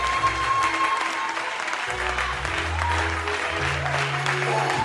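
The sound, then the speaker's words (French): A church audience applauds for Jesus, a steady, loud wash of clapping hands that continues evenly throughout. “Acclame, acclame, acclame. Acclame, acclame Jésus.”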